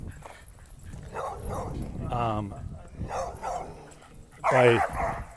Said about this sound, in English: the dogs are barking out here today